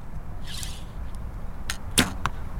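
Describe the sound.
An arrow shot from a bow hits a target. A brief airy whoosh is followed by a few sharp, cracking impacts close together, the middle one loudest, with no talking.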